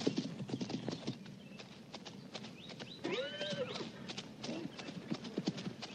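Hooves of a horse being ridden clip-clop at a steady walking rhythm. Many even hoof falls carry through the whole stretch at a moderate level.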